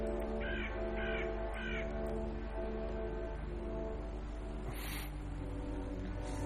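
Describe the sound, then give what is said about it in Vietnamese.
A crow caws behind a house: three harsh, evenly spaced caws come in quick succession, followed by a long stretch of steady background noise with no voices. “Đâu biết rằng từ đằng sau ngôi nhà kia vang lên một tiếng quạ kêu lạnh lót.”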